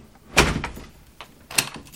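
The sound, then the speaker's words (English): An apartment front door is handled as someone comes in: a firm wooden thud, a few lighter clicks and rattles, then a second solid bump about a second later. No voices are heard. “Cole's mother carries her sleeping boy in through the front door.”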